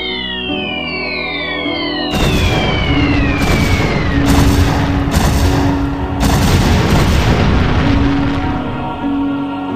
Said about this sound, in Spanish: Creo que vosotros lo llamáis fuegos artificiales.